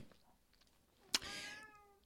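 A cat meows, one of several cats gathered around a house: a sharp click, then one drawn-out meow with a clear tone that gently trails off, faint and heard alone, followed by a small tick at the end.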